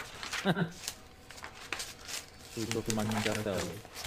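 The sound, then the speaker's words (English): Sheets of paper shuffled by hand, out of order, as someone sorts through a stack: short, dry rustling bursts under a voice that is talking. “Paper. Yep, lots of paper here, guys. I'm going manual. And even worse is I'm not keeping it in order.”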